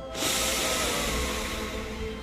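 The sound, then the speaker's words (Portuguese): Deep inhale through the nose during a guided breathing exercise: a long, airy hiss that starts abruptly and holds steady for about two seconds, heard alone. “Inspira pelo nariz o máximo que você puder.”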